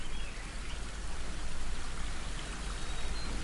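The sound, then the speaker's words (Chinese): Flowing water of a stream makes a steady, dense rushing and bubbling hiss that stays even from start to finish, with no other sounds. “流水的声音包围着你，感觉一下颜色。”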